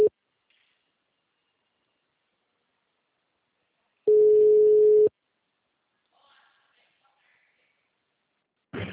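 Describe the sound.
Telephone ringing tone: a steady, low-pitched electronic beep lasts about one second in the middle, separated by long silences from clipped beeps at the very start and end, with faint scattered noises between.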